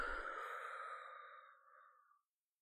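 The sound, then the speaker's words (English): A patient breathes out during a lung examination. It is a single long, soft exhale, breathy and airy, that slowly fades away over about two seconds until it stops. “Good, and then this side. Breathe in. 1, 2, 3, and out.”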